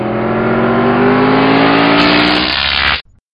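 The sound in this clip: DeLorean car accelerating and driving off, a loud, steady engine roar with strong harmonics that holds throughout and then cuts off abruptly near the end.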